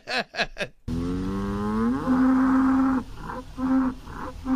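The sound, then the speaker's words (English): Ankole cattle mooing: a loud, long, low, harmonic moo that rises in pitch, then holds steady before breaking into a few shorter pulses, with no voices. “Here is the sound of an Ankole moo.”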